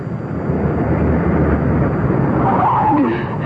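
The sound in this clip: A car brakes hard and skids, producing a loud, dense, continuous roar of tyre and road noise that runs the whole length with little change.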